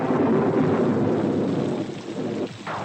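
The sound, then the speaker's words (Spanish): Rain falling at night as a steady, dense hiss with a low rumbling undertone. It dips briefly near the end. “Es de noche y llueve.”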